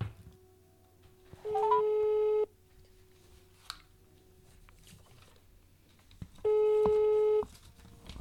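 Telephone ringback tone as a call is being placed: two steady, electronic ring bursts about a second each, separated by several seconds of quiet line hiss.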